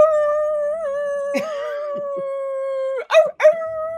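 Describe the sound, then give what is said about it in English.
A creature howling as electricity strikes it in a Halloween tabletop game: one long, wavering, sustained howl lasting about three seconds, then two short, sharp yelps close together at the end. “Oh, God. It howls.”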